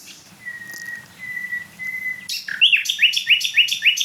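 A nightingale sings in late April: a few long, drawn-out pure whistled notes, then a rapid run of repeated sharp high chirps, loud and clear over faint low background noise.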